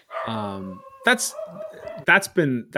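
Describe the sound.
A dog in the room barks and whimpers, with a few short yelps and whiny sounds mixed among people talking.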